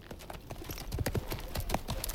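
Hooves of horses ridden through the night clop in a quick, steady rhythm. The many soft, even hoofbeats continue throughout without voices.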